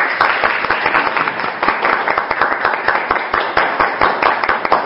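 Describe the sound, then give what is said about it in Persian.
Participants in an online class clap for themselves for about five seconds, a dense, steady patter of many overlapping hand claps with no voices. “لطفاً 5 ثانیه برای خودتون یه دست بزنید.”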